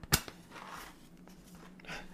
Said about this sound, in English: Hang on, I need to light this cigar.